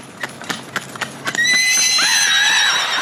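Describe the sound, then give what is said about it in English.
A pony stallion lets out a long, loud, high whinny that wavers in pitch and holds to the end. Several hoof clops come first, spaced at a steady trotting rhythm. “I have a wonderful little pony stallion. His name is Sandy.”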